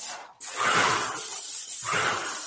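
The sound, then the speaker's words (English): Loud, steady hiss of a paint sprayer laying down a coat of enamel, with a short dropout just after the start before the spray resumes at an even level. “Make sure. Make sure sprayer's going here.”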